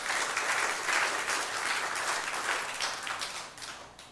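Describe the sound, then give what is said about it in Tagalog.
A church audience applauds in praise of the Lord during a sermon. Steady, dense clapping holds loud and even, then gradually thins and fades toward the end. “Palakpakan po natin yung Panginoon.”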